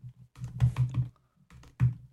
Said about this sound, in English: So let me just say hello. Let me just write hello. Hi, Facebook.